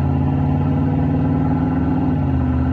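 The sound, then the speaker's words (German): A car accelerates at full throttle through a tunnel on dry asphalt, giving a loud, steady, low engine roar that holds without a break from start to finish. “Im Tunnel griffen die Räder sofort nach dem trockenen Asphalt. Steven gab Vollgas.”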